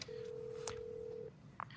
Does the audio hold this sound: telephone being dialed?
yes